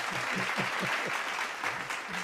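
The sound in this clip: Applause sound effect: dense, continuous clapping from many hands, a steady crackling wash at an even level throughout.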